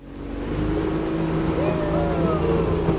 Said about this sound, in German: Das kleine Holzboot liegt in die Kurve und beschleunigt, zur Freude der Touristen.